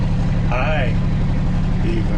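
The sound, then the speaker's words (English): Engine of an off-road side-by-side vehicle, a golf cart and dune buggy hybrid, holds a steady low drone throughout while people talk over it. “Which is a machine that looks like the result of mating a golf cart with a dune buggy. Pretty amazing. Yeah, this machine's a beast.”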